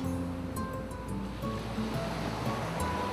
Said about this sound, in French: Peut-être en fermant les yeux, tu peux même imaginer la mer, l'océan dans laquelle tu es en train de nager.